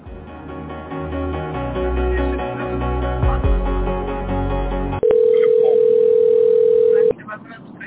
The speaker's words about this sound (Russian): переведу вас на отдел заботы, который уже занимается эмбрионами. Оставайтесь на линии.